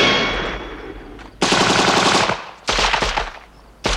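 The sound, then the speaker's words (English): Automatic gunfire as agents open fire on a sniper shooting from behind a rock. Several loud, rattling bursts are separated by short gaps, with no voices. “Agents open fire on Saxby, who's sniping from behind a rock.”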